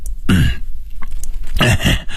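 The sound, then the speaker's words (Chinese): An old man lying in bed coughs a few times. The rough, hoarse throat-clearing bursts are loud and close together, with no speech. “躺在床榻上咳嗽了几下说”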